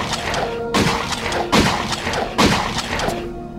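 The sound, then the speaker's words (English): Pistol shots ring out as three sharp, heavy bangs at a steady pace over a continuous noisy backdrop, each one briefly trailing off. “I quickly brought up my pistol and fired several shots at Santa.”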